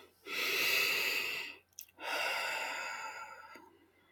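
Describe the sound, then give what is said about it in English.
A deep breath is made of two long, breathy airflows separated by a short pause. The second one tapers off gradually, quiet and with no other sound. “Take a deep breath.”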